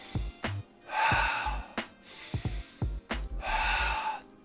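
Deep breaths drawn in through the nose during a stress-relief breathing exercise: two long, airy, rushing breaths, each lasting close to a second, with soft low thuds sounding between them.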